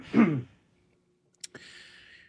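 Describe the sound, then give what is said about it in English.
A short, rough throat clearing lasts under half a second and is followed by quiet, then a faint click and a soft hiss. “So, I got to clear my throat again.”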